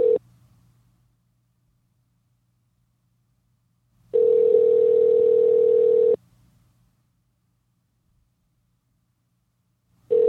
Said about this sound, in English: So let's call Big Licky. We'll, of course, we'll hang up if I get his voicemail